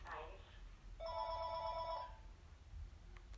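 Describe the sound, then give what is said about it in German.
A telephone rings in a home during a video game session: one faint electronic ring of about a second with steady tones, and people talking before and after it. “Und das Telefon klingelt.”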